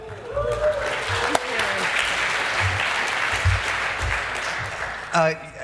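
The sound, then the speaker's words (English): Audience applause at a live talk event, a sustained crackle of many hands, with voices heard over it at the start and again at the close. “Again, huge round of applause for all the pros that end up working in this room, making up for my last minute screw ups.”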